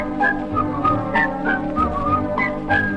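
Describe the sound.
A lilting Swiss-style whistled song, with many short, clear melodic notes that hop up and down in pitch in a bouncy rhythm over a low, steady backing.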